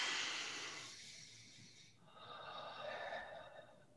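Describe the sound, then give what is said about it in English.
A deep breath in and out: a soft, airy inhale of about two seconds, then a hissing exhale of about the same length, faint and with no talk. “So let's take a deep breath in and out.”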